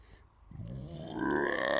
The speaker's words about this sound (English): pardon me. That was a great burp.